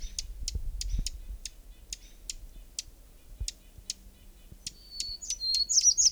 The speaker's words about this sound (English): Hermit Warbler right nearby.